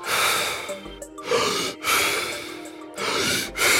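A person takes deep, fast breaths during a breathing exercise: forceful, airy inhales and exhales follow one another quickly with brief gaps between them, loud and breathy with no talking.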